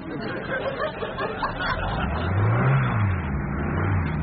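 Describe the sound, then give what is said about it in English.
Engine of a Transit van being worked on in the street by a tower block: a rough, mid-pitched running engine that swells into a louder rev around the middle before easing back slightly. “If you hear any strange noises, don't be alarmed, it's only the neighbours. That'll be Keith in flat 12 working on his transit van.”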